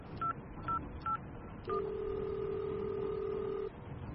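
Touch-tone telephone dialing as a call is placed: a few short, clear keypad beeps at an even pace, then a steady tone that holds for about two seconds before stopping.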